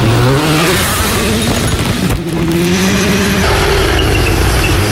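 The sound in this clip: A car engine held flat out in sixth gear through a corner gives a loud, continuous high-revving drone. Its pitch climbs early on, then holds steady, with a brief dip near the middle.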